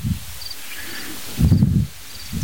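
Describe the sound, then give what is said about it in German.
Outdoor wind beside a hedge buffets the microphone in low, rumbling gusts, the strongest in the middle, while faint high bird chirps sound now and then above a steady soft hiss. “ihr müsst leider etwas Windgeräusche ertragen”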